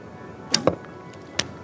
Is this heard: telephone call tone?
no

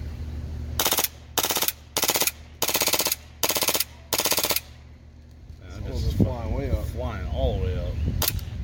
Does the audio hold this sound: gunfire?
yes

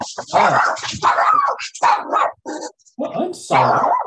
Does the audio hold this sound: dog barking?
yes

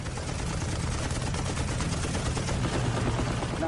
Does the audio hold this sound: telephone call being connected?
no

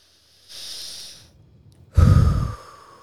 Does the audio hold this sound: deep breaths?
yes

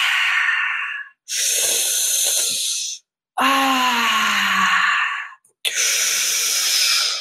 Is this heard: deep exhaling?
yes

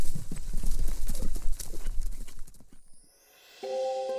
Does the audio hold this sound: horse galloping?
yes

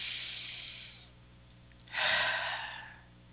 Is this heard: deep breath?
yes

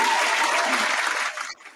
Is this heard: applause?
yes

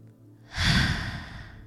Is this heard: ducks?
no

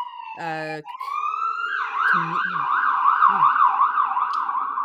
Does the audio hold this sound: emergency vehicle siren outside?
yes

